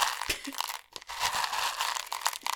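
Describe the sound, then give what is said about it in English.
Quiet ASMR crunching of Cheerios cereal, a steady run of crisp crackles and crinkly crunches at a soft, close level, with no talking. “I can do some Cheerio ASMR if that will help.”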